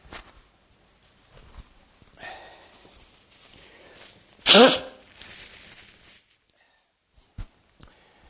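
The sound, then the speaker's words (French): A man takes off his jacket: soft fabric rustling, then one loud swishing burst partway through, followed by quieter rustles and a couple of brief clicks near the end. “Excusez, je vais enlever mon veston avec votre permission.”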